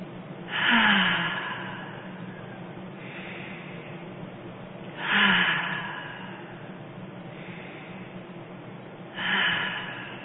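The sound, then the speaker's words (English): Slow cleansing breaths during a guided kundalini meditation: quiet nasal inhales alternate with three louder, airy exhales through the mouth, evenly spaced and unhurried, with no talk. “taking some nice breaths in and out, cleansing breaths in through the nose and out through the mouth”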